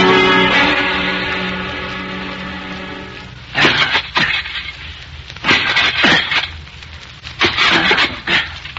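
Shovel digging a hole in the ground: several rough scraping thrusts and crunchy bursts of soil come in uneven pairs, after a held tone that fades away at the start.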